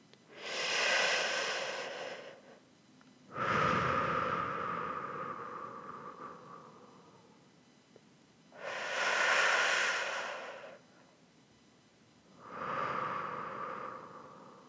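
Slow, deep breathing in and out, four long airy rushes forming two full breath cycles, each swelling and fading with short quiet gaps between them, some breaths carrying a soft hum-like tone.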